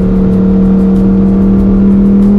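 A sports car engine, the same one used in the Audi R8, drones steadily inside the cabin, loud and at a constant pitch with no talk over it.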